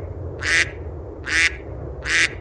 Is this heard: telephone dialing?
no